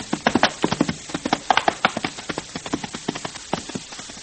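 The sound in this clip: Hoofbeats of four horses being ridden in a group, one trailing behind the other three. Many quick, uneven clip-clops overlap in a continuous galloping patter, fairly loud throughout.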